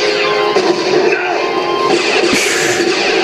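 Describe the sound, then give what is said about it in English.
A cabin full of firewood blows up in a video game: one brief, sharp crash stands out against a loud, steady bed of game noise. “Oh no, he blew up my cabin full of my firewood.”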